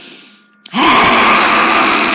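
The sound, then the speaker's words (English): A person performing a yogic lion's breath lets out a loud, sustained breathy scream with tongue out, bursting in abruptly after a short near-silent moment and holding steady for about a second and a half. “You take a huge breath in, and then you open your mouth, you stick out your tongue, and you go,”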